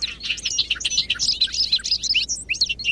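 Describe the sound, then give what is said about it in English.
Bobolinks sing in a large hayfield in western New York State in early May, a continuous bubbling, tumbling stream of high, metallic chirps and warbles. “We're standing in a large hayfield in western New York State, where bobolinks are returning to nest.”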